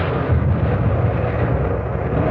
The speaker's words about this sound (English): the A and B turrets were firing away beautifully, all four guns in white-hot action.